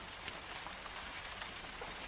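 Rain falling outside: a soft, even hiss of patter on surfaces, steady and unbroken for the whole short stretch, faint and with no other sounds.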